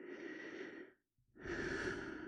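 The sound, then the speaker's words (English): Slow, deep breathing, soft and airy: two long, drawn-out breaths separated by a brief silent pause, with no voices. “Make it easy by taking a nice deep breath now”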